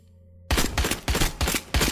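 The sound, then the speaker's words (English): Gunfire in a video game: after a short quiet moment, loud rapid shots erupt in several quick bursts separated by brief gaps. “Why are you shooting people, Chris?”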